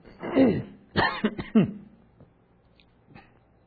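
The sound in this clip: A few harsh coughs and some throat clearing in short, loud bursts, followed by near quiet with a couple of faint small sounds.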